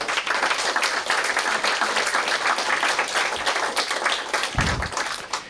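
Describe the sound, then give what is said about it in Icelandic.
Applause at an association's annual meeting for its staff: a steady, dense wash of clapping from many people that holds level throughout, with a couple of low thuds near the end. “Klöppum fyrir starfsfólkinu okkar.”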